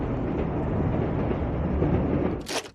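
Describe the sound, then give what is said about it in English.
A train passes overhead as a steady, loud rumble of wheels and carriages throughout, ending with a brief bright hiss. “The man's gaze lifts as a train passes overhead.”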